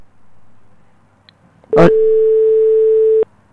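Telephone busy signal on a call that fails to connect: a sharp click, then one steady mid-pitched tone held for about a second and a half before cutting off abruptly, heard alone over faint background hiss.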